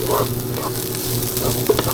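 Carrots frying in a pan make a loud, continuous sizzle, with scraping and clattering as they are stirred, and no talk over it.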